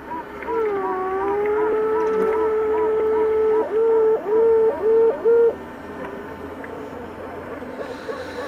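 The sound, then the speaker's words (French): A newly emerged queen honeybee pipes: a loud, long, steady reedy tone, then four short, evenly spaced toots at the same pitch, followed by faint background hiss. “Maintenant, écoutez, ce n'est pas le loup, mais c'est le cri de la reine des abeilles.”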